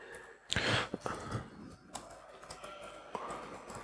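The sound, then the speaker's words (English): Typing on a computer keyboard as a start command is entered: a quick, irregular run of sharp clicks, a cluster of faster strokes near the start followed by more scattered taps, with no voices. “So if I want to start the service, I just type start.”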